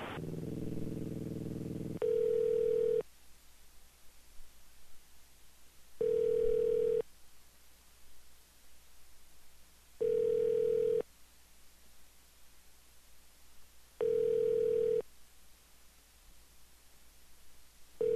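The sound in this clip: A telephone line tone comes as four evenly spaced beeps, each lasting about a second and repeating every few seconds. The steady mid-pitched tone is faint and heard alone over a quiet hiss.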